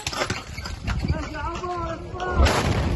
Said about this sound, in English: A blast could be heard the moment an Israeli airstrike hit a house in a Gaza City suburb on Sunday.